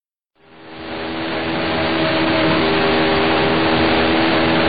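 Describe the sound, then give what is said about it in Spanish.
A 1979 McLaren M28 racing car engine heard on board at the Zandvoort Dutch Grand Prix circuit. After a brief silence it comes in as a loud, steady, rasping drone and holds through to the end. “Vamos a ver cómo sonaba en 1979 el M28 de Patrick Tambay en manos de Patrick Tambay.”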